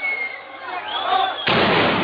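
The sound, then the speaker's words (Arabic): A bomb blast over the Ashira neighbourhood of Homs during a Friday protest: a thin whining tone drifts for over a second, then a sudden loud, broad burst of noise breaks in and roars on to the end. “قنابل جمعة الحرية، جمعة أزادي، جمعة أزادي، هاي قنابل على حي عشيرة طريف فيروزي 20/5.”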